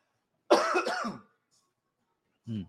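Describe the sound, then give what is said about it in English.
A throat clearing or cough: a rough, voiced burst lasting under a second, then after a pause a second, shorter and lower grunt. No other sound in between. “Sorry, got a tickle in my throat there.”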